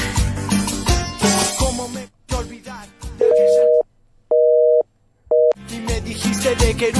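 A telephone busy signal sounds on a call to someone already on another line: three steady, mid-pitched tone bursts, the last one shorter, separated by brief silences and set between passages of loud music.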